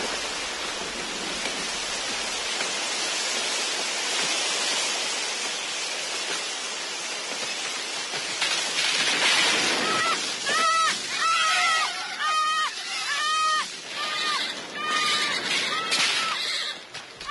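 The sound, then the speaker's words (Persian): A raging river roars with a steady, dense rush of water throughout, and repeated horse whinnies cut through the torrent in the second half. “رودخانه بد جوری خروشید.”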